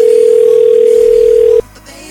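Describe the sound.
A telephone call's beep sounds as one long, steady mid-pitched tone that cuts off abruptly after about a second and a half, leaving a quiet line.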